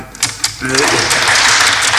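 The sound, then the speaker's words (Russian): Bank employees applaud Shipuchin: a few sharp, separate claps open, then quickly swell into steady, dense applause that carries on loudly to the end. “Это аплодисменты, которыми служащие банка приветствуют Шипучина.”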